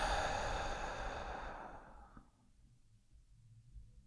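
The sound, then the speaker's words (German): A deep breath during a guided breathing exercise, drawn in through the nose and let out through the mouth: a soft, airy rush of breath that fades away over about two seconds into near silence. “jetzt nehmen wir gemeinsam erstmal einen tiefen Atemzug durch die Nase ein und durch den Mund aus.”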